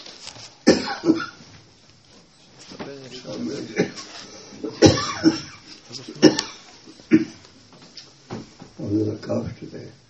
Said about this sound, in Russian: У меня небольшой кашель сегодня.